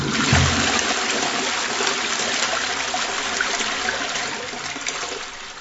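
A toilet flushing, with a loud rush of running water and a splashing gurgle that eases slightly toward the end.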